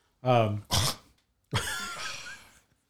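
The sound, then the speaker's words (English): A person imitates a scoff with throaty, breathy exhalations: a low voiced grunt and a quick airy huff, then a short pause and a longer rasping exhale. “I'm trying to recreate his scoff and I can't.”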